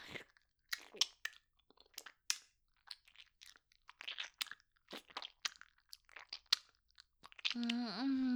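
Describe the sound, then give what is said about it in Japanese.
Chewing in the mouth: close, crunchy bites and crisp clicks in irregular bursts, fairly quiet, with silent gaps between them and a short voiced sound at the very end. “口の中、カミカミするね。”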